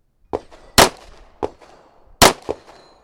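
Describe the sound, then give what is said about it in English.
Pistol shots fired during a practice round before a pistol competition: five sharp, percussive reports spaced unevenly, two of them noticeably louder, each ringing briefly with a metallic edge, with no talking. “He's getting ready for a practice round before a pistol competition. He loads his magazine with bullets. All right, I'm going hot. Ready?”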